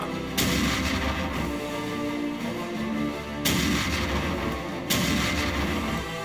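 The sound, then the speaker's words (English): Ship's starboard cannons firing in three heavy booming blasts, each a sharp loud crack followed by a long rumbling roar that overlaps the next, with no voices. “redcoat seaman hurries the starboard cannons with several crew. Ready? Steady? Fire!”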